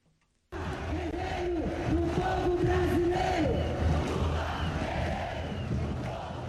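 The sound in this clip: A massive crowd cheers and chants at a political rally in Sao Paulo, Brazil: a loud, continuous roar of many voices with wavering chant lines, starting abruptly and holding steady to the end.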